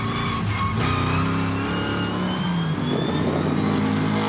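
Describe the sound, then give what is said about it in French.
A V8 car engine runs loud and steady with a deep rumble. The car is mostly stock, with light engine tuning and a rally handbrake. The pitch dips and then climbs again as it revs. “Tout de suite, il y a quelque chose qui m'enchante les oreilles. C'est le son du moteur V8.”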